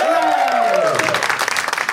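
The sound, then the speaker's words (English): Audience applause rises for guests coming on stage at a live show, starting under a voice that trails off and swelling into dense, steady clapping from the crowd. “I give them a big round of applause above the stage.”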